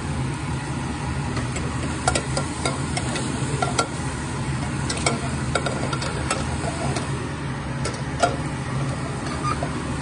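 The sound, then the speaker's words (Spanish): Half a stick of butter melts and sizzles in a pan, a steady soft hiss dotted with small crackles and pops throughout, fairly faint against a low background hum. “Ok, vamos a poner media barra de mantequilla aquí. A que se derrite.”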